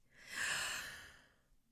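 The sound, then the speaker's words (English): A deep breath in through the nose and out, a soft airy rush that swells and then fades over under two seconds, with no talking. “Let's roll our shoulders back. Breathe in through the nose.”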